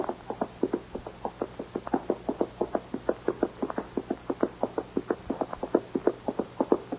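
Horses' hooves clip-clopping as riders head to the north pasture, many quick, hollow knocks in a steady trotting rhythm, clear and heard alone.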